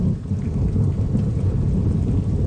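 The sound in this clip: Rain falls with thunder in drought-stricken Syria, a loud, continuous low rumble blended with the dense patter of the downpour and no voices.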